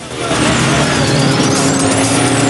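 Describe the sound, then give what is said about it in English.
Motorbikes ridden by a group of bikers speed off together, a loud, steady engine roar with a high whine climbing in pitch. “Bikers carrying grenades zoom off on their bikes together.”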